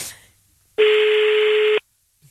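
A single steady, buzzy electronic telephone tone sounds for about a second as a call is placed, loud against near silence, then cuts off abruptly.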